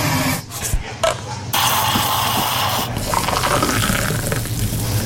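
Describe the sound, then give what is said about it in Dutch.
A McCafé cappuccino being made and poured: a continuous hiss with a gurgling, filling liquid sound, loud and steady throughout with slight shifts in texture. “Je luisterde naar de heerlijke cappuccino uit ons McCafé.”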